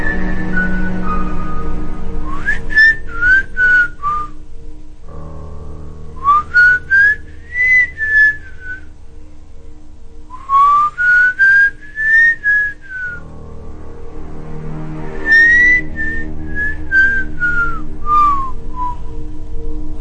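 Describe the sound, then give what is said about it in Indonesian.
A person whistles at night: four melodic phrases of clear, high notes that glide up and down, with short gaps between them over a low, steady background hum. “Tak jarang ketika kita bersiul malam hari, misalnya dalam waktu sekarang”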